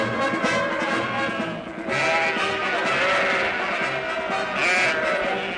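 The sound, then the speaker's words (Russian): Goats bleating as they run off with cows, driven along with other livestock. Many loud, overlapping bleats merge into a dense, continuous chorus with brief swells. “Бегут коровы, козы.”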